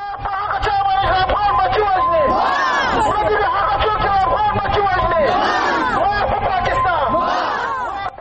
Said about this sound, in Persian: در اعتراض به حمله های راکتی پاکستان، صدها تن امروز در مرکز ولایت کنر بر ضد پاکستان مظاهره کردند.